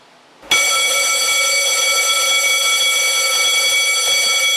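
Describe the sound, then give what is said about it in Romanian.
Fire station alarm calling firefighters of a CBRN crew to an intervention: after a short quiet start, a loud, steady electronic alarm tone with many bright harmonics sounds continuously without pause. “Aceasta este alarma pe care o vor auzi pompierii nou mutați în subunitatea pentru echipajele CBRN în momentul în care va fi nevoie de intervenția lor.”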